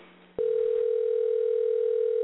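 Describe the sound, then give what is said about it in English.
A steady telephone dial tone sounds on a line used to call a cell phone. After brief faint low sound, the single unbroken tone starts abruptly and holds at a constant pitch and loud level to the end. “We're calling Larry Dorman on his cell phone here. I don't know, maybe he'll answer.”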